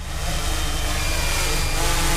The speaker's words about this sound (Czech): Policista Tomáš Opálka nechává z polní cesty poblíž sledované křižovatky u Olbramovic vzlétnout do vzduchu černý dron.